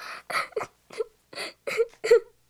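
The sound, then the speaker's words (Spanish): A frightened young girl of about five cries in a string of short, high, wailing sobs, each broken off by a brief pause in an uneven rhythm. “Al pensar que había hecho algo incorrecto, comenzó a llorar asustada ante la sorpresa del padre.”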